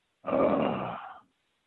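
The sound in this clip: A human voice imitates a groan: a single loud, sustained, throaty sound lasting about a second, tapering off at the end, with no other speech around it.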